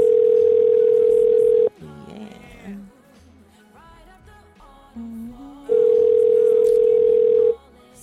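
A telephone dial tone sounds as a loud, steady, unbroken hum in two long stretches, separated by a quieter passage of shorter, shifting tones.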